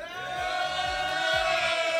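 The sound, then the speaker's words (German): A party crowd at a radio station event for a 21st birthday cheers and whoops in a steady, sustained roar at moderate loudness. “Also, ihr hört es im Hintergrund, da ist schon ordentlich Stimmung.”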